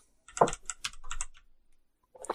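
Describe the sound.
Keystrokes on a computer keyboard: a quick cluster of clicky taps, then a few more spaced presses, a pause, and a brief final burst of typing.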